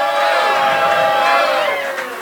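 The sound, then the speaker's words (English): Live show audience shouting together, a loud sustained wash of many voices yelling that holds steady for about two seconds and eases slightly at the end. “In-N-Out Burger... Can we get a yay, boo, yay, boo?”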